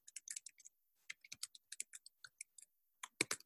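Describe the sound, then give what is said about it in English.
Typing on a computer keyboard: many quick, crisp keystrokes in irregular bursts, with a short pause about a second in, then a final flurry of louder taps. No talk. “Let me just put it, just type it down.”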